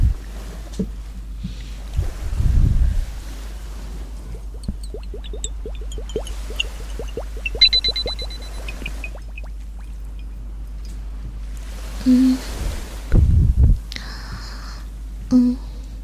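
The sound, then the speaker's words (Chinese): Water sloshes and splashes gently in a few short bursts over a faint, steady low hum. Soft squeaky tonal bits appear between the splashes. “我给你听一个好听的水的声音”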